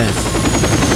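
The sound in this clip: A double-rotor helicopter flies with a rapid, throbbing beat of its rotor blades in a brief burst of loud, dense noise. A voice speaks a single short word over it.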